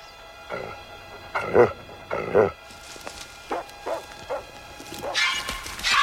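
A large mongrel dog barking near a cornfield: a few loud, sharp barks, then shorter, softer yips, ending in a burst of broader noise.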